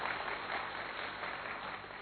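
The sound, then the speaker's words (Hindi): An audience applauds for a woman, giving a continuous, even wash of clapping at a fairly soft level that holds steady for the full two seconds. “Very good, ताली बजा दीजिए इनके लिए।”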